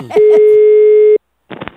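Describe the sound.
A telephone line ringback tone: a single steady, even tone lasting about one second, with voices just before it and talk resuming after a short silence.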